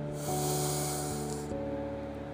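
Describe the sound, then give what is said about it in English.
Slow inhalation through the left nostril during a gentle breathing practice: a soft, steady airy hiss lasting about a second over a sustained musical drone. “close off the right nostril with the right thumb. Inhale through the left nostril.”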